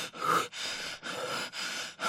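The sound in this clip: Gasping breaths of someone in a panic attack: loud, harsh, rapid inhalations and exhalations in a steady rhythm, roughly one every half second, with no talk over them.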